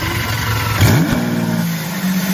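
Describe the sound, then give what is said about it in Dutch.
Lamborghini Countach engine idling, a cold 6.5-litre V12 paired with an electric motor, not being revved: a steady low, throbbing hum that stays level throughout with no throttle blips. “We hebben het nieuwe geluid van de nieuwe Lamborghini Countach. We hadden het er afgelopen vrijdag al even over, de Countach. In het weekend officieel onthuld. Achterin ligt een 6,5 liter V12, gekoppeld aan een elektromotor.”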